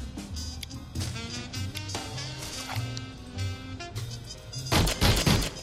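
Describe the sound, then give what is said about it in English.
A big cartoon gun in an adventure game fires at a pile of cheese, a loud burst of rapid blasts near the end, heard over a bouncy game music background. “Okay, if I use the big gun with the pile of cheese.”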